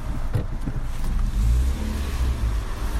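A car drives through a fast-food drive-through, its engine giving a steady, low rumbling hum at moderate loudness, with no voices.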